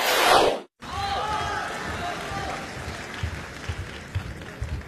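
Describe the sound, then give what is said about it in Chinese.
Audience applause at a Beijing crosstalk comedy show: a loud burst of clapping cuts off briefly, then gives way to softer, continuing applause and crowd noise with voices. “感谢您的掌声鼓励。”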